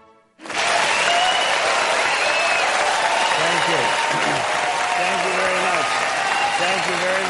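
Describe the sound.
Audience applause welcoming Ben Stein to the stage bursts in abruptly after a brief quiet and holds as a loud, dense, steady wash of clapping, with a voice speaking beneath it later on.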